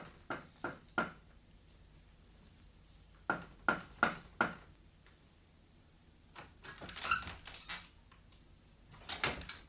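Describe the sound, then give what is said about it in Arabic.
Knocking on a door as a sound effect in an Arabic drama: a quick group of three knocks, then four more, followed later by louder rattling knocks, all fairly faint. “زعفران سيسبان، أنت مش سامع الباب؟”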